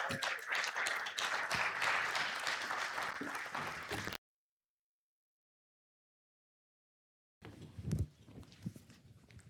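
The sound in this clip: Applause from a church audience welcoming a speaker before a sermon: dense, sustained clapping for about four seconds, then a sudden cut to silence, with scattered noise returning near the end.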